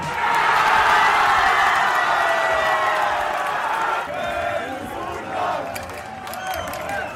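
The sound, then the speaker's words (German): Football fans in Leipzig cheering a German national team victory: a dense, continuous crowd roar full of shouts and whoops that stays loud throughout and eases slightly toward the end. “Überall wurde gejubelt über den Sieg unserer Fußballnationalmannschaft. In Leipzig klang das dann Samstag so.”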